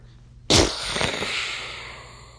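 A single shotgun blast sound effect, a sharp, loud burst that hits abruptly out of near silence and leaves a long, rough tail fading slowly over about two seconds.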